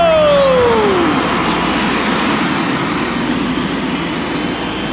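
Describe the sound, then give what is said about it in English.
Hover drive racers launch in a sci-fi race, a loud, sustained jet-like roar that opens with a falling whine while thin high tones climb above it, holding steady to the end. “racers, engage your hover drives! In 3, 2, 1, go!”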